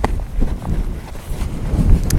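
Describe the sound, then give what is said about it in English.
Wind blowing at an exposed hilltop viewpoint, a low, rumbling buffeting with uneven gusty swells that carries on throughout. “it's a bit breezy up here”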